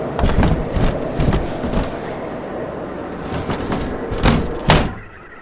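A wooden door being shut firmly on a tiny windowless hut during a blizzard: several dull knocks and thuds over steady background noise, clustered at the start and again near the end, where the last thud is loudest.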